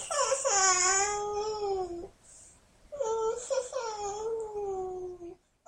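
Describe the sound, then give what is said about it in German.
A small child whimpers and cries with a blocked nose: two long, wavering whiny cries separated by a short pause. The second cry breaks into shorter sobbing bursts before it fades at the end. “Ihre Nase ist ganz verstopft. Lotte jammert und weint ein bisschen.”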